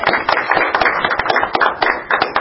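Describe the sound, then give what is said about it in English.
A short round of applause from an audience at a lecture: a few people clapping in quick, uneven bursts of sharp claps, loud and without talk. “can I also offer a round of applause for the gentleman right in front of me with the awesome outfit and the glow?”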